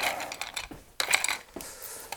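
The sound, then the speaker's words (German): Old wrenches with a patina are handled on a shelf in a shed, giving light metallic clinks, rattles and scrapes in a few short clattering bursts with no talking. “Ah, hier sind noch mehr alte Werkzeuge. Verrostete Schraubenschlüssel.”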